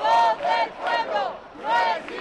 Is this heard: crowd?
yes